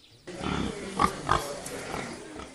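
Pigs grunt on a pig farm in Rwamagana, Rwanda. A few short, loud grunts stand out over a lower, continuous snuffling murmur from the animals.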